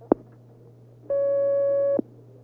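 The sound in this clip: Telephone line tone as a phone call is connected: a single steady electronic tone of about one second, framed by sharp clicks, over a constant low hum.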